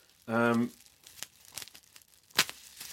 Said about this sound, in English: So yeah, I've got this bubble wrapped thing. It's kind of tube. And I'm just going to snip the bubble wrap